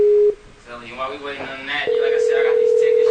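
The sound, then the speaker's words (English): Ringback tone of an outgoing telephone call ringing out, a steady mid-pitched electronic tone that stops briefly while a voice speaks, then resumes and holds evenly to the end. “Let's call them back. I mean, that's the best thing to do. We're going to keep calling them. Hopefully they'll pick up.”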